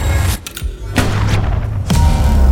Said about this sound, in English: The coil gun is firing.